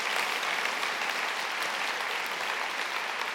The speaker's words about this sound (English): So applause for our team who pour themselves into laying on the conferences